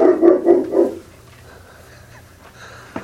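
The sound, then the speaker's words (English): A pet dog barks three quick, loud times in the first second while guarding a fellowship gathering, then falls quiet over a low steady hum. “That should make interesting background noise on the audio. That's our dog Snoopy guarding our fellowship.”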